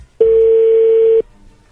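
A telephone dial tone sounds as a call is placed to offer a chocolate promotion: one steady, unbroken mid-pitched tone lasting about a second, loud and alone.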